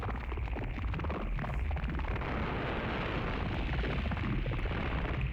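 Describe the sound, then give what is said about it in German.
Space-junk sound effects for a spaceship scene: a dense, continuous, loud rumbling roar with a crackling texture that holds steady throughout, with no voices. “Zisch! Peng! Boing! Weltraumschrott fliegt uns um die Ohren.”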